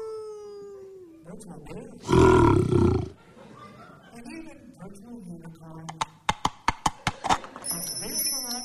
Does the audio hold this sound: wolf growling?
yes